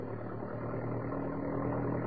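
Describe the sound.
Jeep engine droning steadily while driving, a continuous low, even hum with a faint vibration and no clear change in pitch.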